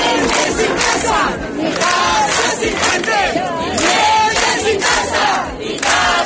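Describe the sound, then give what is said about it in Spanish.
Hundreds of protesters chant at a housing demonstration in Badajoz, Spain. The crowd shouts loud, continuous, rhythmic calls in massed voices without a break. “Cientos de ciudadanos se manifestaban este lunes en Cáceres y en Badajoz contra la situación de la vivienda en España.”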